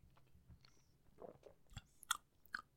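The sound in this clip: Candy chewed during a taste test: faint, crunchy bites and moist chewing, with a few sharper crackles near the end, alone and quiet.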